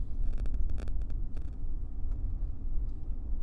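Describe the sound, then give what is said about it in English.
A truck drives along a Class C gravel dirt road with a steady, loud low rumble of engine and tires, dotted early on with light ticking crackles, and no voices. “It's probably thinking, we're on a dirt road now, you guys, so. Yeah, we're it's a, what, Class C gravel road?”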